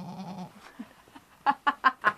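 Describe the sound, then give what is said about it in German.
Goats bleating in answer to a herder's calls, opening with a wavering, nasal bleat, then a few short, sharp, evenly spaced pulses that grow louder toward the end. “Meine Ziegen heißen immer Zeuzeus. Eine Ziege ist eine Zeu. Und manchmal denke ich, die erwidern auch mein Zeu, Zeu, Zeu, Zeu, Zeu, Zeu, Zeu.”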